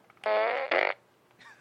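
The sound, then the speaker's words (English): A toy fart gun lets out a loud, buzzy fart noise lasting under a second. It breaks into a sputtering second burst and is followed by a brief, fainter squeak. “This was a Despicable Me fart gun, yes, is what it was.”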